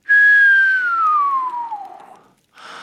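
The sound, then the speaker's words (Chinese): A long, soft human whistle: one sustained tone that glides slowly downward in pitch for about two seconds before fading out. A brief, different sound follows after a short pause. “罗恩轻轻地吹了一声长长的口哨”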